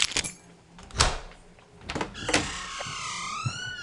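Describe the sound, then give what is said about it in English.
A concierge opens a door in a grand hall: a run of clunks and rattles, then a long, wavering, high-pitched creak that carries to the end. “If you listen closely enough, you can hear the concierge coming to open the door for us right now.”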